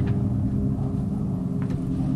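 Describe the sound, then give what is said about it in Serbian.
A car engine rumbles at night as the car pulls up, a steady low drone that holds evenly through the whole clip. “Jedne noći zaustaviše se kola.”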